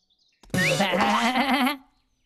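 A goat gives a single wavering bleat lasting just over a second, loud and quavering, starting abruptly after near silence and then cutting off.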